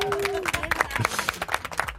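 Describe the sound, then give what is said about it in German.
Staff at a company party clap for a colleague's wedding: scattered, uneven clapping from a small group, with voices talking over it throughout. “Vielleicht noch einen großen Applaus von allen Mitarbeitern.”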